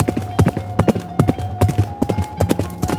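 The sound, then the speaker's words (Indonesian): A ridden horse spurred into a gallop, its hooves pounding loudly in quick, uneven groups of beats, with a steady tonal hum underneath. “bral saurang miang tumpak kuda ditegarkeun ngajugdug ka lembur nu pangdeukeutna”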